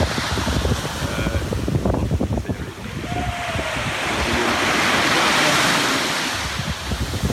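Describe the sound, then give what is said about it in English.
Ocean waves wash onto a beach below a cliff, mixed with gusty wind buffeting the microphone. The surf rumbles in loud, uneven surges and swells into a broad, sustained wash over the later seconds. “Yikes, I'm getting my feet wet. There it is. There's our spot on the beach.”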